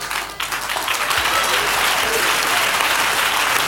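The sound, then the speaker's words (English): An audience at a church prayer gathering in Ghana claps in a loud, sustained roar, starting a little softer and then holding a dense, even intensity through to the end. “You are tired of clapping so soon. the way you are clapping with a microphone in your hand,”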